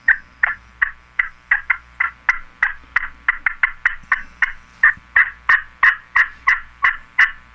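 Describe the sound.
A friction turkey call played with a stick pulled from the outside edge toward the middle gives a long run of many sharp, loud yelping clucks in an even rhythm, with no voices over it.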